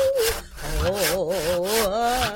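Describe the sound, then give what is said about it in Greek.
A saw cuts through a large wooden tree in repeated rasping strokes, rhythmic and unbroken, with a wavering tonal drone running underneath. “Οι καλικάντζαροι όλο το χρόνο πριόνιζαν το μεγάλο εκείνο δέντρο που στήριζε το έδαφος. Πριόνιζαν ασταμάτητα.”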